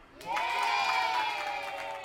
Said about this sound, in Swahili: Tuko pamoja mpaka hapo? Jipigie makofi.